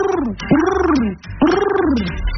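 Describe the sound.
A human voice imitates a pigeon's cooing with a few throaty, warbling coos, each swelling and then sliding down in a low, rounded pitch. Loud, with no other sound.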